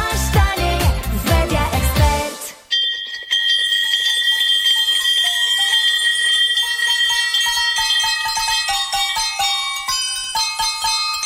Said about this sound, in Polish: Słuchacie właśnie najradośniejszej kolędy na świecie. Złożonej z prawdziwych dzwonków zwycięstwa. Tych, które rozbrzmiewają w klinikach, kiedy ktoś pokonał raka.